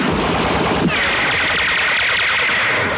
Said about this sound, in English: When another Land Rover arrives, Mike sprays it with his machine gun.